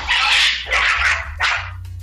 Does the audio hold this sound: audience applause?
no